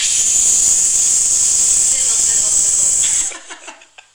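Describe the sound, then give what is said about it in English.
Cheese grilling gives off a loud, steady sizzle of bright hiss for about three seconds, then cuts off abruptly, leaving a few faint crackles and pops. “That's the noise it makes when we grill cheese.”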